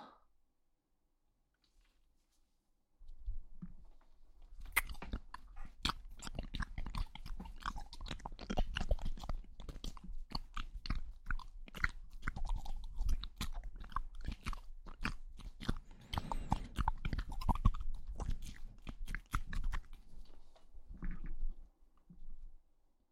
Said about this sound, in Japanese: 耳、脳みその中までくちゃくちゃ聞こえるでしょ。